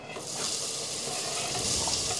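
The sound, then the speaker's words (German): Onions sizzle and fry in a pan: a loud, steady, crackling hiss that holds evenly throughout, with no talk. “So, Zwiebelchen kannst du schon mal reinschmeißen. Ich komme mit dem Fenchel hinterher.”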